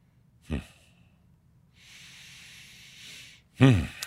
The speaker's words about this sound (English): Let's take a good deep breath